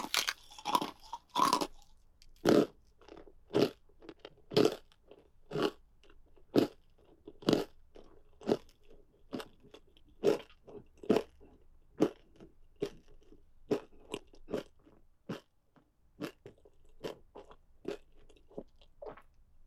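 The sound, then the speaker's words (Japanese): Bones are crunched and chewed during eating: many sharp, crisp bites in a fairly steady rhythm, loud and clear, with no talking. “一つ一つの骨に感謝して食べるわね。”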